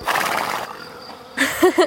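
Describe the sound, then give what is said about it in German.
A horse neighs in a short, breathy whinny lasting under a second, followed after a brief pause by a louder, quick vocal burst. “Oh, du bist wirklich ein ganz tolles Pferd.”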